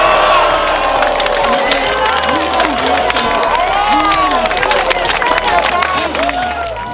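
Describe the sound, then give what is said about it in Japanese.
A crowd cheers loudly at the Hakone Ekiden qualifying race as Nihon University takes the last qualifying spot. The roar is dense and continuous, with shouted voices rising and falling through it from start to end. “10番目、はい、最後の切符が日大へ渡った瞬間の歓声を聞いていただいたんですが”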